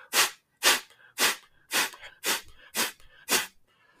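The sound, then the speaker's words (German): Seven forceful pulsed exhalations through the nose or mouth, done as a breathing exercise to activate the sympathetic nervous system. Each is a sharp, breathy hissing burst, evenly spaced and heard alone, with short quiet gaps between them. “ist ein stoßweises Ausatmen äh, durch die Nase oder durch den Mund wo man sich nur auf das, auf das Ausatmen konzentriert im Endeffekt”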